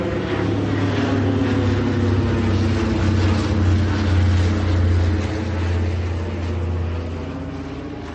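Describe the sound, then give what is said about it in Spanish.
An airplane flies away toward the horizon, its engine a loud, steady drone with a strong low hum that eases slightly in the final second. “Un anciano mira el avión que se aleja por el horizonte.”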